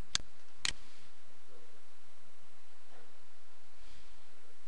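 Two sharp computer mouse clicks in quick succession as a script is saved, followed by a faint hiss and soft rustling.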